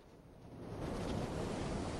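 Roaring wind of a Martian dust storm, a broad, hissing rush that builds louder over the first second and then holds steady and strong.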